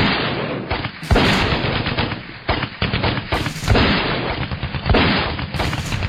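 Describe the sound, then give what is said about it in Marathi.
Medium and light machine guns fire in loud, sustained bursts, a dense rapid clatter of shots broken by brief gaps between volleys. “ते पुढे सरकताच MMG आणि LMG धडधडू लागल्या.”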